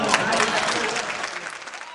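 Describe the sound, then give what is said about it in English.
Audience applause: dense, crackling clapping from a crowd that stays fairly loud throughout and thins slightly toward the end. “Notice the applause. Notice the applause.”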